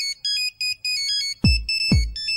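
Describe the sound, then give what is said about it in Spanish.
Nokia Samba ringtone: a bright, bouncy synthesized melody of quick repeated notes, with punchy low beats joining in partway through. “tenía un tono de Nokia que era Samba, una cosa así, que yo a raíz de eso lo tenía en mi celular también.”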